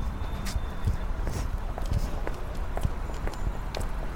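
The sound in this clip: Footsteps of two people setting off on a walk to a restaurant: a steady run of faint taps and clicks over a continuous, noisy background.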